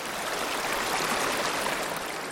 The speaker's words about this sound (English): The water gets louder, flowing through one ear and out the other.